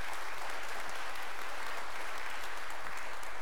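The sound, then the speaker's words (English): Church audience applauding to welcome missionaries: dense, steady clapping that holds at an even level for the whole stretch, with no voices standing out. “Will you give them a hand and just say welcome?”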